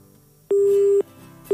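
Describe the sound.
A telephone line tone sounds after a call is cut off: a loud, steady mid-pitched beep lasting half a second, a half-second gap with only faint hum, then the next identical beep starting.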